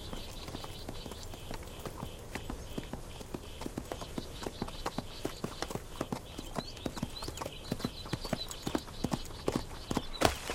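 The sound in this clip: Horse hooves clip-clopping in a field by day as the horse carries a rider lying across its back: many sharp hoof beats in a steady, brisk rhythm, continuing evenly throughout.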